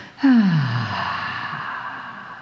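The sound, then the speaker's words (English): A deep breath in and out, taken as part of a guided relaxation exercise: a single loud, sharp breath that fades slowly over about two seconds, alone without talk. “Okay, so if you take a big breath in, nice and deep, let it out.”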